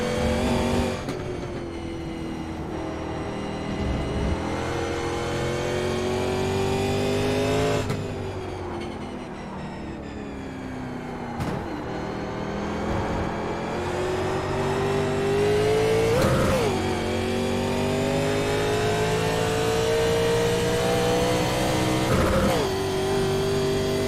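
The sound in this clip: A racing car engine in a driving video game screams at high revs, its pitch climbing steadily then dropping abruptly at several gear changes, with no talking over it.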